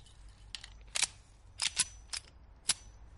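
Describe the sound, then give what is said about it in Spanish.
A pistol is fitted with a magazine and cocked in an action-thriller film: a quiet series of sharp, dry metallic clicks and snaps, spaced irregularly over about three seconds. “John coge la pistola, le pone el cargador y la amartilla.”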